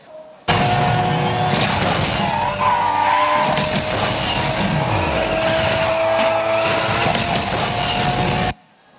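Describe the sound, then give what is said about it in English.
Car drifting around a curve in an arcade racing video game: a steady engine drone with a hissing tire skid runs unbroken for about eight seconds, loud and even from start to finish. “So in order to do that, we've got the drift.”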